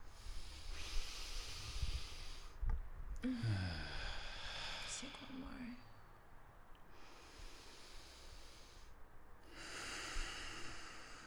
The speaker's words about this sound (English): So you can just take a breath right now. Let's take a breath. Let's take another one.